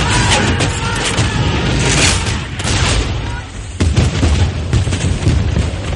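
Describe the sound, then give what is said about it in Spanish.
Booming cannon broadsides from sailing warships in a naval battle, with repeated heavy blasts rising out of a continuous loud, rumbling din. “Ambos veleros disparan sucesivas andanadas.”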